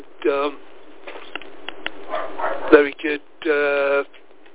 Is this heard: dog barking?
yes